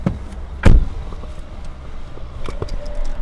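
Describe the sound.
Car driving along the road through Glenwood Canyon, a 12-mile canyon: a steady low road rumble with one heavy thump early on and a few lighter knocks later.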